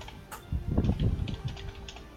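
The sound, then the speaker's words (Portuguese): Typing on a computer keyboard during a tabletop role-playing session: a quick run of light, irregular key clicks, fairly soft and clustered in the middle. “digitando aqui e já vou falar pra você.”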